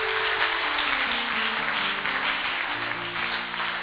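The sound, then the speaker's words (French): Applause from a church audience honouring the Holy Spirit during worship, a dense, steady wash of clapping that holds throughout, with sustained low musical tones underneath. “Est-ce que tu peux acclamer le Saint-Esprit pour sa fidélité”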